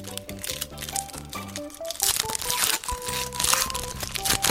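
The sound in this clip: Crinkling and tearing as the foil wrapper of a trading card pack is ripped open, a run of loud, crisp crackles and crunches over quieter music.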